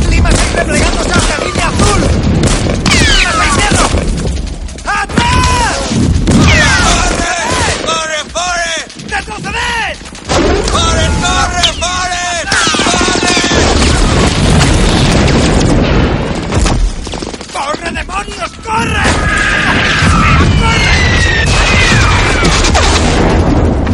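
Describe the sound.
Grenade explosions and gunfire in a wartime battle among trees, with rockets: dense, loud booms and rapid bursts of shots pile up continuously, with voices heard at times.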